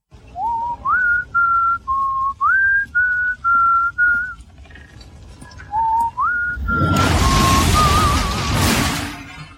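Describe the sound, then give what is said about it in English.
A whistled tune in two phrases. The first phrase is a run of clear held notes stepping up and down. In the second, a loud, broad roaring crash of a house going up swells in and nearly buries the whistling. “This is the whistling. Now, at the beginning, you'll hear there's like that kind of two phrases to it. And in the second phrase, there's a whole bunch of noise because it's a house going up.”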